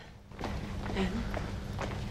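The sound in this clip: Worried parents hurry toward a hospital reception, making a few quick, light footsteps over a low steady hum.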